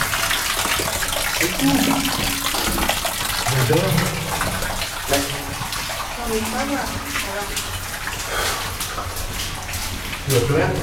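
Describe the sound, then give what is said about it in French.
Hot water runs from a tap in a steady, continuous rushing hiss that holds at an even level throughout. People talk over the flow. “Attention, l'eau chaude sort de là.”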